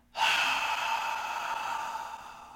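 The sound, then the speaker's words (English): A slow, deep exhale through an open mouth, like fogging a mirror during a belly-breathing exercise: one soft, breathy rush of air that starts abruptly, holds steady for about two seconds, then gradually fades. “when you inhale, take a nice deep breath, and fog the mirror slowly”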